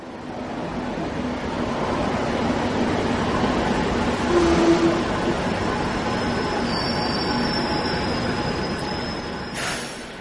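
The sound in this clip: A metro train travelling during a morning commute: a loud, steady rumble of wheels on rails runs throughout, and a thin, high metallic wheel squeal rises out of it in the later part.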